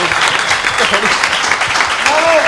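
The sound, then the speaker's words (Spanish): Dense, steady applause greets a new member inducted into a gaming hall of fame. Loud continuous clapping fills the whole stretch, with voices calling out over it near the end. “Un grandísimo aplauso para el nuevo miembro del Bolso of Steel Hall of Fame después de 14 años, Game Over. ¡Bravo!”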